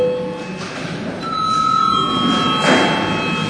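Electric bell rings in a Latvian parliamentary chamber to call deputies for registration, a sustained, moderately loud ringing tone that shifts pitch partway through and continues to the end with no speech.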